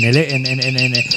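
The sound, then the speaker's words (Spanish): A nightingale sings in the Montes de Toledo in spring, giving a quick run of high, bright repeated chirps in a steady rhythm over a sustained low spoken voice. “en un programa anterior sobre el ruiseñor, pues este pajarito, que es de África, viene aquí en primavera a criar. Canta día y noche”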